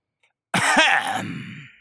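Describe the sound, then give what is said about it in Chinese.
A single gruff, angry cough or throat clearing from a man in a period audio drama, sharp at the onset and then trailing off into breathy rasp. It is heard alone. “玉方折扇啪的一声砸在手掌上，恨恨地咳了一声。”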